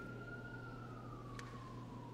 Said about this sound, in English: But even the siren going by right now is a demonstration of God's providence. They're serving our neighborhood.